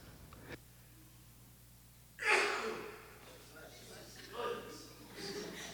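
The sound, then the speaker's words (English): A single sneeze bursts out sharply and loudly, then trails off, followed by quieter breathy sounds. “sometimes when I sneeze like that, I have to turn the windshield wipers on only to realize it's on the inside, right?”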